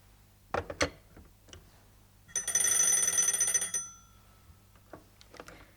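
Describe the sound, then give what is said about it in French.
An old telephone bell rings in one bright, rattling metallic burst of about one and a half seconds, on a phone line crowded with other callers. A few soft knocks and clicks come before and after the ring. “on me sonne et je ne peux pas parler, il y a du monde sur la ligne.”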